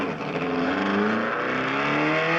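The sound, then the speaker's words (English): Car engines revving hard as kids drag race outside, a loud continuous roar with steady layered harmonics that holds without a break. “just some kids drag racing outside, I think”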